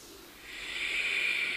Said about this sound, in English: Out Ujjayi breath.